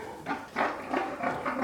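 Pigs grunting in a pigsty: several short, rough, nasal grunts in quick succession, fairly faint and with no voices.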